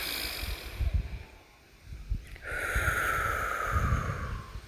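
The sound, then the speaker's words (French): A deep breath blown out during a wake-up breathing exercise, the second of three deep breaths: a long, steady breathy exhale that follows a short stretch of quieter breathing. “trois grandes respirations pour bien me réveiller. Et je souffle. Une deuxième fois.”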